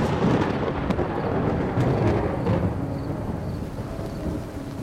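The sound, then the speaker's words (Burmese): Rain falling with a deep rumble of thunder: a dense, loud, steady hiss of drops spread across a low rolling roar that eases slightly toward the end. “မိုးဖွဲဖွဲလေးတွေကဘယ်ချိန်ကမှမသိရွာချလိုက်ပါတယ်”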